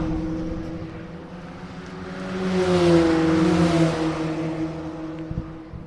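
A race car roars past at speed across the finish line of a three-hour endurance race. The engine note swells loudly, then fades as its pitch drops.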